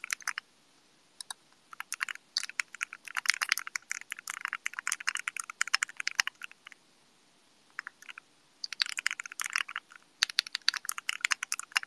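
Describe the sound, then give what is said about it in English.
Typing on a fully assembled D65 mechanical keyboard: quiet, rapid clacking keystrokes in irregular bursts, with a short pause in the middle before the typing resumes. “And then I'm looking at this fully assembled D65 keyboard that looks really nice.”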